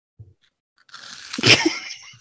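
Crunching of Cheetos in an ASMR setting: a crisp bite builds into crackling, with a single sharp crunch at its peak, and the whole sound stays fairly faint.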